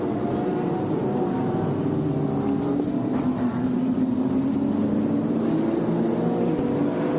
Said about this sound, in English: And Ryan DL, as promised, in the Era Motorsport Port Ferrari, which should be starting a lap now.